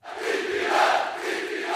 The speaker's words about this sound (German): An die Macht, skandierte das Publikum, als Oppositionsführer Kemal Kılıçdaroğlu das Wirtschaftswahlprogramm seiner republikanischen Volkspartei vorstellte.